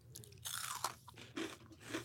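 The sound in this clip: Crisp crunching as someone bites into and chews a Twix-style Reese's candy bar, a few distinct crunchy bursts spaced across the moment, fairly quiet and with no talking over them.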